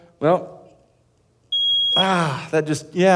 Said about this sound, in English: we need to replace the batteries in the smoke detectors. I mean, in theory, you have these in your house. And if you hold it down long enough,